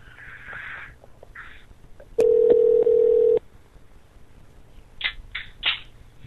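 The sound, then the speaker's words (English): A telephone call being placed: a single steady mid-pitched phone tone lasts about a second, followed by a few short chirping sounds, with faint noise before. “I'm calling Salt Lake City right now.”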